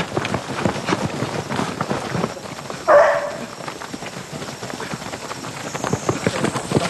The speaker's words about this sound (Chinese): 有狗叫，肯定有人，咱们快点，